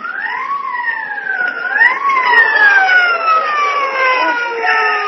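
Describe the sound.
Police car siren wailing loudly, its pitch swinging up and down a couple of times before sliding down in a long, slow glide, heard alone without talk.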